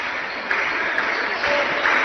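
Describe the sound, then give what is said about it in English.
Bench players clapping for their teammates during a basketball game, a soft, steady patter of applause with a few slightly louder bursts. “Indian bench players are into a little applause for their teammates right now.”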